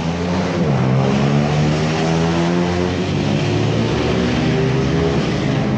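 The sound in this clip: A motorbike engine drones loudly and steadily during Saturday-night street racing, a dense harmonic roar that holds a fairly even pitch throughout with only slight wavering.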